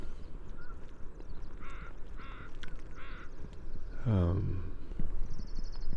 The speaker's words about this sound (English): Northwestern crow.